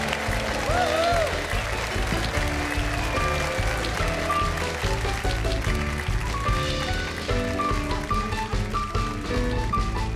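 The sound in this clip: Audience applause welcoming a guest onto a live variety show. Steady clapping runs for about ten seconds, mixed with band music.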